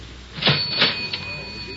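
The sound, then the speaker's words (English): Coins drop into a cigarette vending machine, making three short metallic clinks spaced a few tenths of a second apart over a faint, steady mechanical whine. “Do I have some change for the cigarette machine?”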